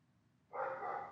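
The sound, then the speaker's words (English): One faint, drawn-out bark comes from a pet dog. It starts halfway through and holds steady to the end. “I'm laughing at the dog. My dog wants to say an affirmation.”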